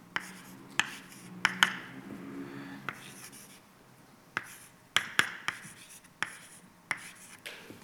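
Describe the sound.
A lecturer writes an equation on a board: many sharp taps and scratchy strokes come in an irregular series, each tap crisp and bright, with soft rubbing between them and no talk.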